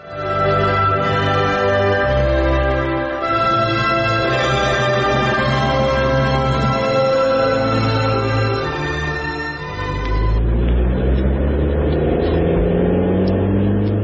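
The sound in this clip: A shared car carrying passengers in a radio drama, its engine holding a loud, steady droning whir with mid-pitched tones that shift near the end.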